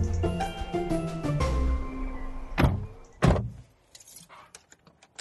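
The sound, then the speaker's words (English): Mechanical thunks and clicks of a car seat being pumped up inside a car: two heavier clunks, then a few faint, quick ratcheting clicks. “That is the sound of me pumping up the seat in my car.”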